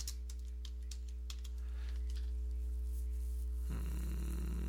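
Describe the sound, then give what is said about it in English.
Typing on a computer keyboard: a quick run of faint, light clicks over a constant low electrical hum, then the keystrokes stop and only the hum and a soft hiss remain. “Sorry while I type.”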